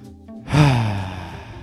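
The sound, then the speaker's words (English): A deep breath: one long, breathy sigh that swells quickly after a short, quieter lead-in and then slowly fades away. “Please take a deep breath.”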